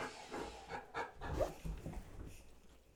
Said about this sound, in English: My apologies if you can hear my crazy dog in the background. I'm not sure what he's doing on the floor here.